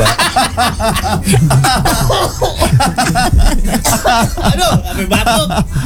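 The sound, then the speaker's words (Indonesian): Coughing mixed with snickering laughter, the coughs breaking up a busy run of chuckles and overlapping voices that talk throughout. “Aduh, sampai batuk.”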